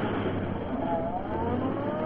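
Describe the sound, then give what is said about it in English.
A car engine roars in a sound effect as a crook's car lurches from underbrush onto a road, a loud, continuous rumbling drone with slight wavering pitch throughout. “The crook's car lurched from the underbrush into the center of the road and stopped abruptly in the path of the larger vehicle.”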